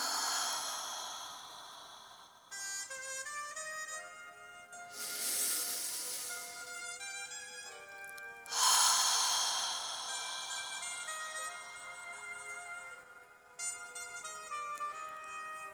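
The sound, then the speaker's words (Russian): Slow breathing during a guided breathing exercise: a few long, airy inhales and exhales rise and fade over soft, sustained musical tones. “выдох, вдох, выдох.”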